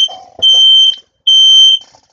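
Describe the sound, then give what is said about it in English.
Home fire alarm set off by smoke, sounding two long, loud, shrill electronic beeps after a few brief blips, with short gaps of silence between. “That's my fire alarm, oh my god.”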